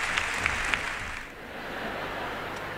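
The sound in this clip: Applause from a concert audience as a singer takes bows: steady, dense clapping with a few sharper individual claps standing out early on, continuing evenly to the end.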